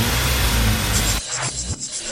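Car engine revving in a Crash video game: a loud, dense roar holds for about a second, then cuts off abruptly and is followed by a few short rising bursts.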